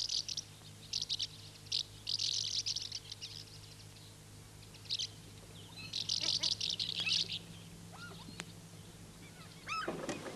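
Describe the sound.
Birds chirping at a carpentry yard in spring, with bright bursts of rapid tweets that come and go over a steady low hum.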